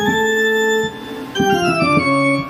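A darker, scarier piano take on the opening of Bach's Toccata and Fugue: a held note fades, then a quick flurry of notes tumbles downward and settles on a lower sustained tone.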